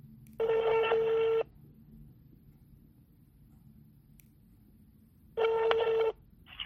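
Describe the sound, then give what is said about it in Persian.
Telephone dialing tones as a call is placed: two steady electronic tone bursts, the first about a second long and the second slightly shorter, separated by several seconds of near silence. “پس بریم که زودتر باهاشون تماس بگیریم و مصاحبهمون رو شروع کنیم.”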